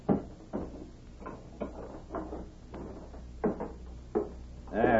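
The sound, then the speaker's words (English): A safe door being shut and locked: many dull metallic clunks and rattles in an uneven rhythm, moderately loud, ending with a denser burst of noise. “I'll put it away for you now. Safe's open.”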